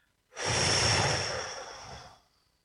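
A long, deep breath out during a guided relaxation, a soft, breathy whoosh that swells quickly, then fades gradually over about two seconds before stopping, alone with no speech.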